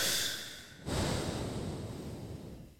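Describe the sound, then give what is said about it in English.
A deep breath, long and airy: a soft hiss dips briefly, then a fuller rushing breath swells and slowly fades away. “take a second, take a deep breath right now.”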